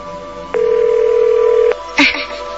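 A single ringback tone plays on the line while a borrowed phone calls a missing mobile: a steady, mid-pitched buzz lasting just over a second, followed by a short rustling burst.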